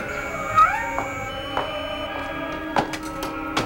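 A cat meows a few times, short mid-pitched cries standing out over a steady, faint tonal hum, with no voices.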